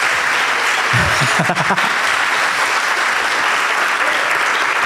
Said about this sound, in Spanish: Vas a tener que aplaudir